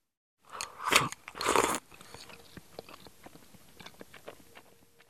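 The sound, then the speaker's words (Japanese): Eating tamago kake gohan, premium Aomori Seiten no Hekireki rice topped with raw egg and soy sauce: two loud, close bites come first, followed by many soft, quiet chewing clicks and smacks. “TKG。 お米は青森県の特 A 米、青天の霹靂か。この米は程よいツヤと柔らかな白さが特徴だよな。いただきます。”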